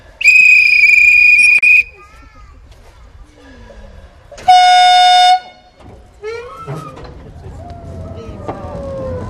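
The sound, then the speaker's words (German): A departing train's high, shrill whistle blasts for about a second and a half, then after a pause a lower, shorter horn sounds, followed by a quieter rising rumble. “Bitte zusteigen, die Sicherheitsketten schließen und Vorsicht bei der Ausfahrt des Zuges.”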